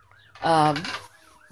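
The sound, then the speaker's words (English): Sirens wailing outside, a faint tone that slowly rises and falls throughout, briefly covered by a louder, voice-like harmonic sound in the middle. “Here goes those sirens again.”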